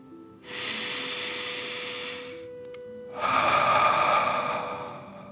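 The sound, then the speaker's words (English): A deep breath taken slowly in and then let out during a relaxation exercise: a long, soft, airy inhale, a brief pause, then a stronger, rushing exhale that fades away, with no talking. “Feel the warmth and take a deep dragon breath in and out.”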